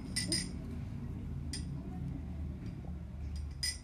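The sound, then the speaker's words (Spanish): A spoon stirs a quick lemon drink sweetened with honey in a single drinking glass, with a few faint, sharp clinks scattered across a low, steady background. “no pues revolver. Revolver. Y listo, ya tienes tú ultra agüita.”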